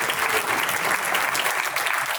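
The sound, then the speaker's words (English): Steady, dense crowd applause at a political campaign event, greeting an endorsement announcement, holding an even level throughout with no pauses. “You can wait for that applause.”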